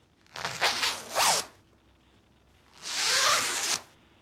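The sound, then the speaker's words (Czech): A clothing zipper being zipped: a few quick rasping strokes followed by a longer, smoother pull, crisp and bright against near silence. “Zip. Myslíš si, že to je zip, jo? Zapínací. Je to tak.”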